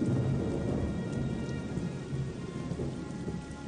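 Rain pours steadily in a thunderstorm, a dense, even hiss of drops on surfaces with a low rumbling of thunder underneath throughout.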